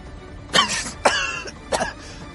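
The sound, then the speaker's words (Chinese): People in a vehicle compartment cough from the smoke of a fired shoulder-launched thermobaric round: three sharp, raspy coughs spaced about half a second apart, with no talk. “车厢里大家被单兵云爆弹发射时轰出的硝烟给熏得咳嗽起来。”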